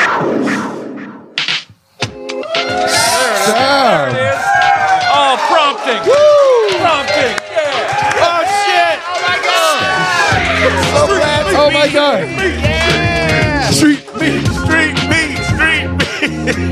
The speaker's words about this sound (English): Street meat. The first chant we get on the show, and it's street meat.